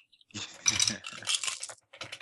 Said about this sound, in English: Well, let's roll the dice.